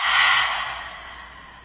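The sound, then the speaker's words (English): A deep breath during a guided breathing exercise: one long, airy exhale that starts strong and fades steadily over about a second and a half, with no talking. “Another one, deep breath in and out.”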